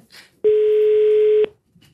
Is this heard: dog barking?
no